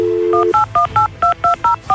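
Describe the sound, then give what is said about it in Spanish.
Telephone keypad dialing tones: a steady dial tone followed by eight short, evenly spaced two-note beeps, loud and clean with no voices. “Bueno, vamos a marcar, por favor.”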